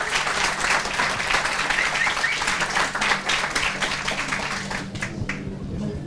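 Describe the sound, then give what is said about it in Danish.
Audience applause for panelists at a debate about women in the armed forces: dense, steady clapping holds for about five seconds, then thins and fades away. “Jeg synes allerede nu, de skal have en hånd for at stille op.”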